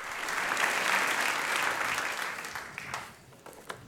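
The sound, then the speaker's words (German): Audience applause at a World AIDS Day 2017 event, a dense steady clapping that swells early, holds, then thins out toward the end with a few scattered claps. “Riesenapplaus für Nino Tratnik.”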